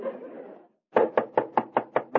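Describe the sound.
Seven sharp, evenly spaced knocks on a door come in quick succession, following a short stretch of dull noise and a brief silence.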